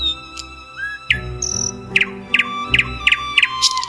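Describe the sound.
Birds chirping in a run of short, bright, high-pitched tweets that repeat in quick succession over a thin steady tone, loud and with no other sound.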